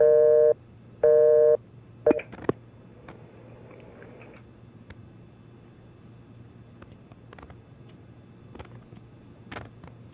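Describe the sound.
Telephone busy signal: two flat, steady beeps in quick succession, then a few clicks and a faint hum of open line hiss with occasional small ticks.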